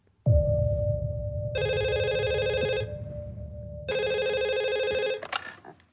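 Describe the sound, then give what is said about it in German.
Telephone ringing in two loud electronic bursts over a steady underlying tone, followed by a short clatter at the end. “Anruf vom Staat.”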